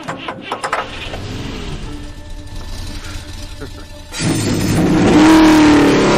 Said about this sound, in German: Meine Herren, starten Sie Ihre Motoren.